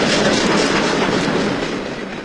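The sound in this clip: A train departing: broad, continuous rumble and clatter with steady wheel noise. It is loud throughout and eases slightly toward the end.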